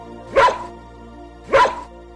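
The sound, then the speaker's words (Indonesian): An old dog barks twice, each bark loud and separate, about a second apart, over a quiet steady hum. “Kemudian anjing tua itu berkata,”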